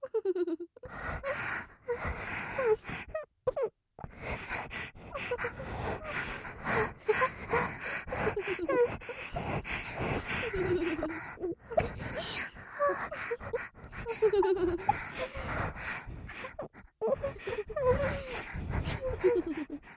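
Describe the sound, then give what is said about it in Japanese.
Realistic moaning and gasping from a voice heard in both ears, with many breathy gasps, pants and drawn-out moans following one another almost without pause throughout. “この音声は喘ぎ声を両耳から流し込む感じになってます。結構リアル寄りの声で興奮してくれると嬉しいな。”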